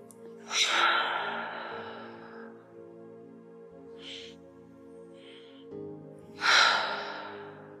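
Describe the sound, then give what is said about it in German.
Two long, deep breaths, in through the nose and out through the mouth, during a guided relaxation. Each is a soft, airy rush that swells and fades over quiet sustained music. “atme erstmal tief durch die Nase ein und durch den Mund wieder aus”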